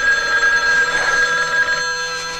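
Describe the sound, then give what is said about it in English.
A telephone rings in a 1980 horror film, a loud, sustained electronic ring with a steady, buzzing tonal quality that holds across the whole stretch. “don't answer the phone. Don't answer the phone.”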